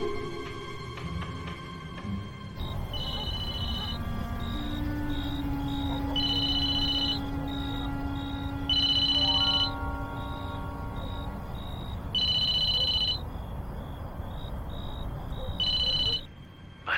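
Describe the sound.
A telephone rings repeatedly for a late-night call, its electronic trill sounding in regular bursts over a low steady background.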